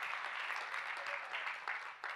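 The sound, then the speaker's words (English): A church audience claps their hands together in dense, steady applause from many people, sustained for the whole stretch with no break. “Come on, give the Lord a big hand clap in this place.”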